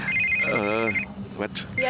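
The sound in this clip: A telephone rings during an interview at the Böhmischer Prater in Vienna, a high electronic ring tone sounding under a speaking voice, followed by shorter bursts of ringing.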